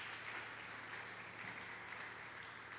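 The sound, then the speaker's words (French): An audience applauds during a French-language church service: soft, dense clapping from many hands that holds steady for the whole stretch, with no voices standing out. “Est-ce qu'on peut acclamer pour la parole du Seigneur?”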